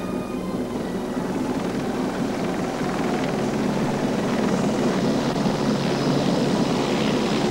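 A helicopter flying toward a walled city on a hillside in semi-desert country makes a loud, steady rotor and engine roar that stays even throughout, with no voices.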